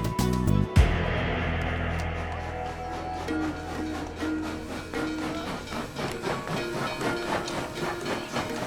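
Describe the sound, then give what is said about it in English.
Steam locomotive of an 1866 Ohio and Mississippi railway train pulling into a station, with a sharp thump near the start, then a continuous hissing rumble and rhythmic clacking that carries on steadily throughout. “when the locomotive pulled into the station in Seymour, Indiana.”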